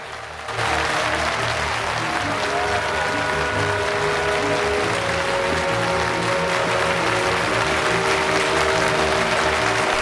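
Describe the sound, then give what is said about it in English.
A theatre audience rising to its feet and applauding, a loud, dense wall of clapping that starts abruptly after a brief quiet moment and holds steady, with sustained music playing beneath it. “Through the mirror, the audience is seen to stand and applaud.”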